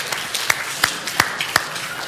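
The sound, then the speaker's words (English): Sparse clapping from a church audience: a few sharp, separate claps at a slow, even pace with fainter taps between them, fairly quiet. “And so, yeah, give Ryan a round of applause. Seriously.”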